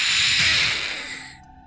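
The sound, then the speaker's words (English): A voice imitating hissing creatures: one loud, drawn-out breathy hiss that holds steady for about a second, then tapers off and cuts out. “As you come around the corner, they look at you and they start hissing.”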